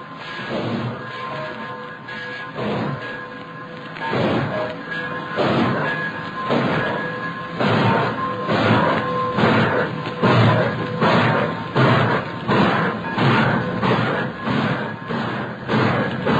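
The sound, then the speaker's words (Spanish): A passing train clatters with steady, rhythmic heavy thumps and clanks, each burst repeating at an even pace for the whole stretch. It stays loud throughout, with no voices. “Se va a mover ese tren y viene con este rumbo. Nos agazapamos aquí hasta que se pase.”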